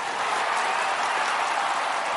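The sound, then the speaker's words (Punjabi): Loud, steady applause from an audience at a Punjabi music performance, a dense, even wash of clapping that holds without pause for about two seconds. “ਉਹਨਾਂ ਦੇ ਨਾਂ 'ਤੇ ਇੱਕ ਵਾਰ ਜ਼ੋਰਦਾਰ ਤਾੜੀ”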